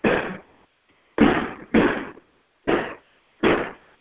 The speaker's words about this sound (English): As apparently the major fireworks are going on.